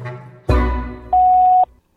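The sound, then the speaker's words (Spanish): A voicemail beep on a university's suggestion-box phone line: after a brief burst of noise, one steady, mid-pitched electronic tone holds for about half a second and then cuts off into silence. “Al oír el tono, grabe su mensaje. Para finalizar, presione numeral.”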